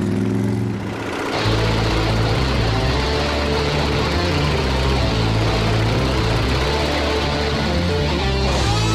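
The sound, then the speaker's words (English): The engine of a custom-built motorcycle on a test ride. After a quieter first second it becomes a loud, sustained, low rumbling roar with a strong throbbing drone that carries on for several seconds. “no matter how many bikes we build or how many test rides I take, it's always a rush to get on one of these and wind it out.”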